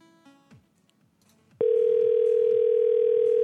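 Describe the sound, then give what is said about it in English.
A telephone dial tone while placing a call: after a quiet stretch of faint clicks, a loud, steady, unbroken tone starts abruptly and holds at a constant pitch until the end. “here we go. I'm calling”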